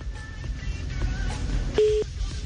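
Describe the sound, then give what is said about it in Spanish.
A phone call cutting off: low, hissy line noise, then a single short, steady electronic beep near the end, with no voices. “Se cortó la llamada, se cortó la llamada.”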